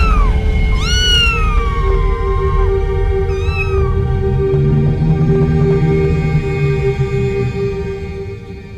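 Cats meowing as ghostly cats in a horror story: a few loud, drawn-out, wavering meows over a low, sustained, eerie drone.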